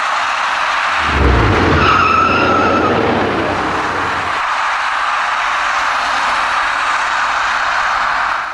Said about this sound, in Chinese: 由于采取措施不及，箭头所指的这辆货车跟一辆行驶中的深色小客发生了剐撞事故